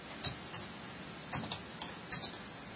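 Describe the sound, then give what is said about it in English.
A handful of separate keystrokes on a computer keyboard, each a soft, faint click, in an uneven rhythm against quiet hiss. “Let me type this in here real quick.”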